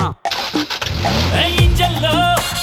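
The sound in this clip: A car engine cranks and starts, giving a rough mechanical churn that settles into a steady running rumble with a whining tone on top.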